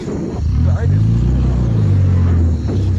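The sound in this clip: Deep engine rumble of a car driving away, a loud, steady low drone that dips briefly twice.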